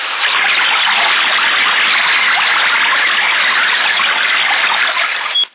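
A toilet flushes with a loud, steady rush of gushing water that holds evenly for about five seconds, then cuts off abruptly.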